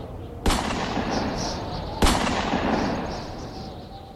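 Hunters fire two gunshots in winter snow and ice. Each shot is a sharp, loud crack followed by a long fading tail, and the two shots are well spaced apart over a steady background hiss.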